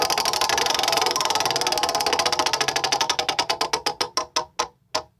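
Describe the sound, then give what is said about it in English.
Prize wheel spinning and ticking: a fast run of sharp clicks that gradually spread apart as the wheel slows, ending in a few separate ticks before it stops. No voices are heard. “It's time for the first wheel spin. I'm going to do it.”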